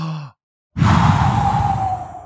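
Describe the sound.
A deep, slow breath of the kind used when swimming laps: a brief voiced sound, a short silence, then a long, loud, airy rush of breath lasting well over a second, with a faint whistling edge.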